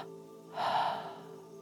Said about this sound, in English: Now, inhale sharply through your nose. Exhale sharply through your mouth.